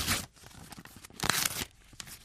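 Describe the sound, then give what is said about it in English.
An envelope is torn open in a few quiet, rough ripping bursts of paper, with short pauses between them. “Let's see what's in this envelope.”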